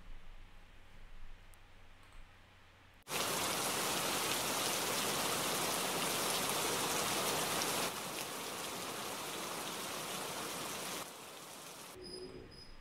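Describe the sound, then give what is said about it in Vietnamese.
An autumn rain shower bursts suddenly onto a street. A low, quiet background gives way at once to a loud, steady hiss of downpour that eases slightly twice and keeps going. “Trời bỗng đổ cơn mưa, mùa thu nhưng trận mưa giống như mưa mùa hạ.”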